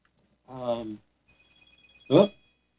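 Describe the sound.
Mobile phone ringing during a meeting: a faint, rapidly pulsing electronic trill sounds between short bursts of speech.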